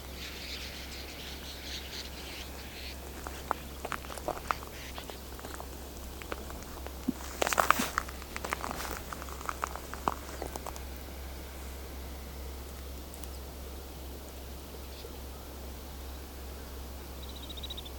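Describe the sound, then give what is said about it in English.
Rattle calls from a moving flock of 200 to 400 snow buntings: brief, dry clicking and rattling bursts cluster in the middle, fairly faint, over a steady low hum. “Look at this rattle sound they make. One of their calls.”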